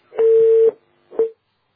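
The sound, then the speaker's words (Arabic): A telephone line tone sounds after a call is cut off: a steady, mid-pitched electronic beep held for about half a second, then a second, shorter beep at the same pitch, with silence around them. “طيب واضح ان الاتصال انقطع”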